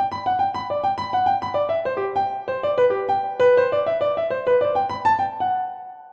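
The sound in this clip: Piano plays a Bach jig with finger staccato, each bright note crisply punctuated for an almost harpsichord-like touch, running in a quick, even rhythm and closing on a sustained note that fades out. No talking is heard.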